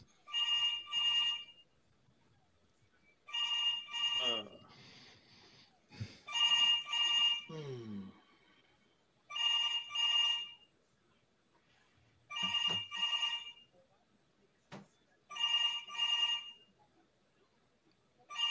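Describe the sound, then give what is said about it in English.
A telephone rings while a call is being placed: repeated electronic ring bursts come at a steady rhythm, with quiet gaps between each one. “My turn. Call Charles Barkley.”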